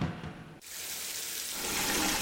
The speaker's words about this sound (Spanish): Hoy sí puse una cubeta mientras salía el agua caliente para utilizarla después